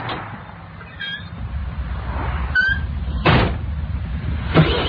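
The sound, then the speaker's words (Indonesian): A car door shuts with a solid, sharp thud over a low, steady rumble, and a second brief knock follows near the end. “Begitu kata supir tadi sambil menutup pintu mobil. Lalu tak lama mobil pun melaju lagi.”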